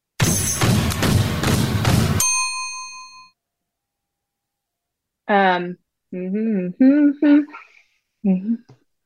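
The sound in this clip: A two-second snippet of a loud, dense pop song cuts off into a ringing ding that fades away, followed after a pause by a voice speaking in short phrases.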